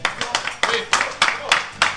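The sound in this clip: A studio audience on a rugby league television programme claps in uneven bursts, each round of handclaps swelling and fading about every third of a second, moderately loud, with voices mixed in.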